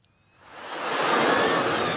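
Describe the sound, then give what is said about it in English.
Surf washes onto a crowded English seaside resort beach, Clacton-on-Sea, during a summer heatwave: a broad, hissing rush of water swells up from near quiet into a loud, steady wash. “An oppressive summer heatwave is baking the United Kingdom and thousands are flocking to the seaside.”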